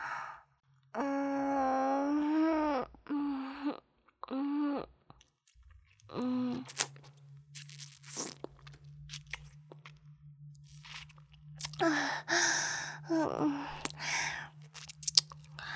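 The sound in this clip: Soft chewing and eating of salty, sticky food: many small wet smacks and crunches over a low steady hum, after a few breathy vocal sounds at the start.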